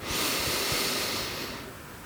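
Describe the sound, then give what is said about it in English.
A deep inhale through the nose during a Kapalabhati breathing meditation, heard alone as a loud, airy hiss lasting about two seconds that slowly fades toward the end. “Lips are touching. Inhale through the nose.”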